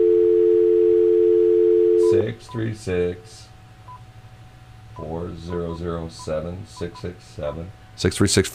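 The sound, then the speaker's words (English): A telephone dial tone hums as one steady, loud, unbroken pitch for about two seconds, then cuts off as people begin talking. “you can also take your phone and you can punch up a dial tone, which people don't hear anymore”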